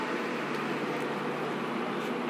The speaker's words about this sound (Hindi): सच कहूँ तो इस वक्त भी मैं स्टेशन में हूँ एक ट्रेन के अंदर ये ट्रेन मुझे एक जगह से दूसरी जगह ले जाती है